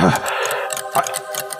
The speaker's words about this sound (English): And the ticking noise that you've heard, that you were hearing just a second ago, it's now filling your ears. Yeah, I hear ticking.